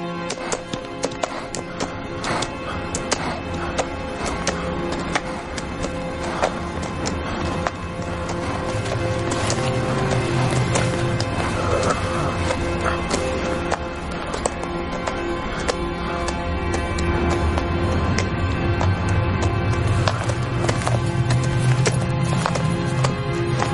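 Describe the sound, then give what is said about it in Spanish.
Hoofbeats of a tired horse carrying a rider across a salt flat at dusk in the 2011 western Blackthorn, a steady clip-clop running through the whole stretch with a rich, layered backdrop. “Más tarde, cabalga cansado por el salar cuando está anocheciendo. Mira hacia atrás y ve que el mismo jinete le persigue a paso tranquilo.”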